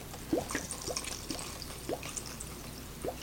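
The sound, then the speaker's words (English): Water trickles into a single-serve mac and cheese cup filled with dry noodles, poured up to the fill line before microwaving. The thin stream splashes softly and gurgles in several short rising chirps. “The noodles here, so I'm going to fill it up to the line. Doesn't look like there's much water in here.”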